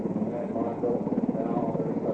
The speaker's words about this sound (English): It's just a downdraft and spray from the helicopter rotors whipping things up.